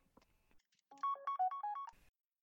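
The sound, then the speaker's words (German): A mobile phone ringtone sounds for an incoming call: a quick melodic run of bright electronic tones, loud and alone, preceded by a few faint clicks. “jetzt werde ich gerade angerufen. Der Chef ruft an, mal sehen, vielleicht hat er noch was für mich.”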